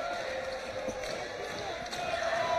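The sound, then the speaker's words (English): Crowd noise fills a college men's basketball game: a steady, dense roar of many voices that holds level and swells slightly toward the end. “Crowd starting to come alive again.”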